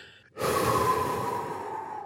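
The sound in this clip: A person takes one long, deep breath to calm down. After a brief quiet moment the breath starts abruptly as a steady, breathy rush and holds for nearly two seconds.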